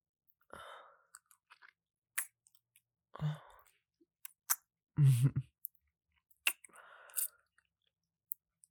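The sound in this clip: Someone tastes food, chewing and crunching with irregular bursts of wet mouth sounds and small clicks separated by quiet gaps, fairly faint overall.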